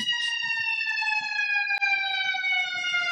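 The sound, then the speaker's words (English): A fire truck siren wails as it passes, a loud, steady, harmonic tone that drifts slightly lower in pitch, broken once by a sharp click. “That's a fire truck.”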